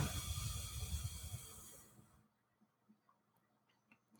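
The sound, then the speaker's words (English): A forceful exhale through the nose after a held breath during a stress-relief breathing exercise: a steady, breathy hiss lasting about two seconds that thins out and tapers into near silence with faint ticks. “So breathe in through the nose again. Hold it. And then push it out.”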